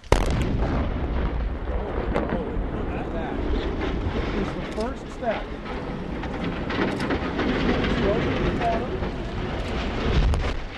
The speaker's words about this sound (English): That's going to be the big blast today.